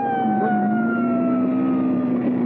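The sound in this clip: A police car siren sounds close behind a vehicle, a loud sustained wailing tone that glides slowly downward over a low engine rumble.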